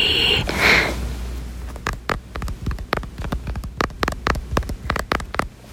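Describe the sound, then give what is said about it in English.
Short fingernails tapping on a surface, many quick, crisp clicks in an uneven rapid rhythm after a brief soft rustle at the start. “That was the sound of fingernails. My fingernails are pretty short, so it didn't really make that cool of a sound”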